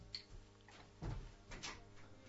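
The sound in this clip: A door at home being opened for an arriving guest: a few faint clunks and rattles of the latch and door, quiet and brief, with no voices during the sounds.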